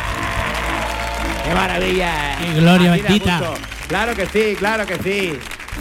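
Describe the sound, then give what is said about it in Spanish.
Audience cheering and applauding at a live show recording at the Auditorio Cartuja, a steady bed of crowd noise running throughout while a man shouts excited exclamations loudly over it. “pero también nos gusta que venga gente como este pedazo de público que ha venido hoy, que suena así de bien.”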